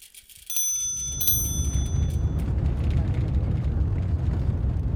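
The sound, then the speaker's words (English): A vehicle drives across a bog in Victory, in the sparsely populated Northeast Kingdom of rural Vermont. A steady, deep rumble of road noise rises quickly and carries on evenly, and a brief, bright, ringing chime sounds near the beginning. “This is what it sounds like driving across Victory Bog.”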